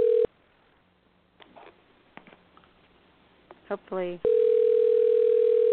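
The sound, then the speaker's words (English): Telephone tones while a call is being placed: a steady tone cuts off, a few clicks follow, then a brief burst of dialing tones gives way to another long, steady tone. “Okay, I'm dialing Connie right now.”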